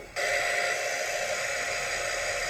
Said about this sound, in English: Using the hairdryer? Probably. And I am addicted to sleeping with my blow dryer.